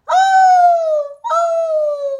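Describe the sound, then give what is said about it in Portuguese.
A deer bellows in two long, clear tonal calls, each drifting slightly downward in pitch, loud and separated by a brief pause. “O veado, mesmo tímido, berra.”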